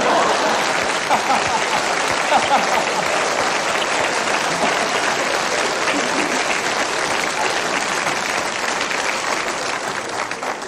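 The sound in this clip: An audience applauds a man appearing at a live event. The clapping is dense, steady and loud, lasting around ten seconds without a break.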